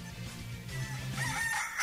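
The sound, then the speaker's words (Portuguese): A rooster crows in long, drawn-out calls that rise and hold at a steady pitch, loud and continuous across the whole moment, with no voices over it. “O canto do galo”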